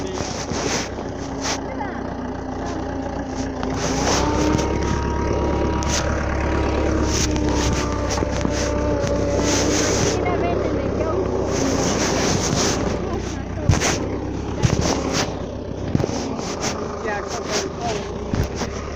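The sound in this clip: A motor engine runs with a steady, continuous drone, overlaid by gusty wind buffeting throughout.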